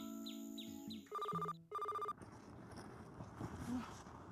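A telephone rings with two loud electronic ringing bursts in quick succession, each a steady bright tone. Softer tonal chirps come before them, and a low murmur of background noise follows.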